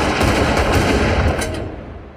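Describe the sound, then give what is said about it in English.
Gunfire in a film shootout as several guns fire at once. Loud, dense overlapping shots form a continuous burst that fades out over about two seconds, with no voices. “And Joe fires, and they all fire.”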